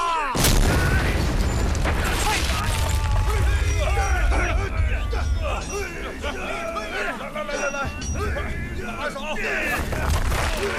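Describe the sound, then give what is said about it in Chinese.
A blasting explosion in a mine quarry bursts abruptly at the start, then gives way to a sustained, dense roar. Several voices call out over the noise. “我们的故事从无锡山里梯矿的开采开始。 使劲啊，放炮啦！”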